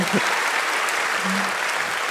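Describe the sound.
Church audience clapping hands in praise during a Sunday sermon, a dense, steady wash of applause that carries on without a break.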